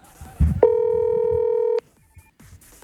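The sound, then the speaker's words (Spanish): A single sustained telephone tone sounds as a call is dialed: one steady, clear beep of about a second after a brief low thump, followed by faint background sounds. “A ver, espérame, vamos a llamarlo.”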